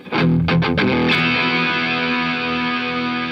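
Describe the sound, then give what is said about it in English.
Distorted electric guitar power chord with heavy reverb applied as a wet signal: a few quick strummed attacks, then one loud sustained chord ringing on and slowly fading in a thick, washed-out tail. “Now, let's throw some blue sky reverb on the same thing.”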